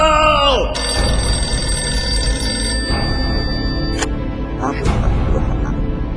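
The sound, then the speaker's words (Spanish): A telephone ringing with bright, sustained electronic tones that break off and resume a few times, heard under loud background noise with people talking over it. “está sonando el teléfono”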